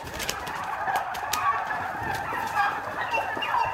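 Meat-breed turkeys gobble on a farm, their calls rising as rough bursts over a steady, noisy flock murmur. The calls are repeated throughout with no clear pauses.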